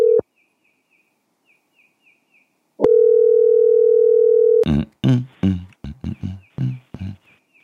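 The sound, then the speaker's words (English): Ringback tone of an outgoing telephone call: a brief tone burst at the start, then a single steady, low electronic tone lasting almost two seconds before a voice starts talking. “If not, we'll give it a few rings.”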